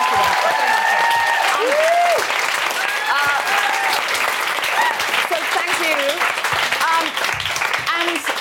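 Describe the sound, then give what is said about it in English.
An audience breaks into a big round of applause at a live event. Loud, continuous clapping carries on throughout, with voices and whoops rising over it. “So just a big round of applause for the”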